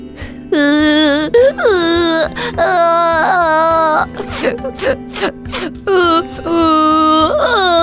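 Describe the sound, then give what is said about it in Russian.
A beaver cub crying loudly as a story sound effect: several long, high, wavering wails, with choppy sobs and gasps between them. The cries are loud and carry throughout. “Наверное, бобрёнку понравилась похвала, потому что он заплакал еще громче и выразительнее.”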